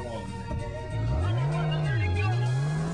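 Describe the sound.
A Porsche Carrera sports car drives off, its engine revving loudly with a pitch that climbs, dips briefly, then rises again as it accelerates.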